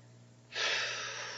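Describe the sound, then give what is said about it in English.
A heavy, forceful breath during a meditation-style talk: one sustained rush of airy noise that starts abruptly partway through and continues to the end, loud against a quiet low hum. “When you hear me breathe like that, it's I'm too high and I'm going to lose you guys, so I have to come down and start pulling you back again”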